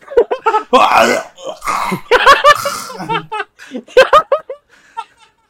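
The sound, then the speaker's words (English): A human voice imitates someone choking on birdseed being forced down his throat, making a run of strained, sputtering gasps and cough-like bursts in short irregular spurts, fairly loud. “as you start forcing this birdseed down Tibble's throat, he starts choking.”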